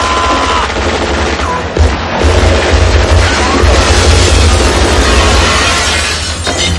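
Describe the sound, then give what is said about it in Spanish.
Loud automatic gunfire from a shootout among office tables in a 1988 action film, continuous rapid bursts forming a dense, harsh wall of shots with a brief dip near the middle before the firing resumes. “Corre entre las mesas sorteando ráfagas. Rueda bajo una mesa y dispara segando las piernas del atacante que cae rompiendo con la cabeza un panel de cristal.”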